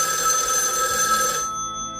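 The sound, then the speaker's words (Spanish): A telephone bell rings for an incoming call, loud and shrill with a steady, even tone, then cuts off after about one and a half seconds into near quiet. “parece que tenemos una llamada.”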